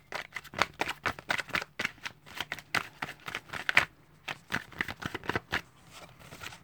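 Tarot cards being shuffled by hand, many quick, crisp slaps and riffles in an uneven rhythm, with a short break near the middle before the shuffling resumes and then tapers off.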